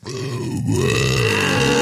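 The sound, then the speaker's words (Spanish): A person burps on demand, letting out a long, throaty belch that holds a steady, voiced low tone for nearly two seconds with no talk over it. “Ahí está, un eructo mucho más digno.”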